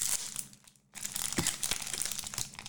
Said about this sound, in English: I'm going to go ahead and open this tightly sealed pack. I'll let you guess what that means. I, it is glued to the back card, so.